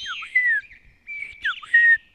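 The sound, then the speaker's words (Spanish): Whistled song of a male pito juan bird perched on a eucalyptus branch, two clear bright phrases of sliding, tweeting notes separated by a short pause. “Es sabido que los pitojuanes machos son una especie agrandada entre las aves, ya que en su canto expresa detalle de su virilidad.”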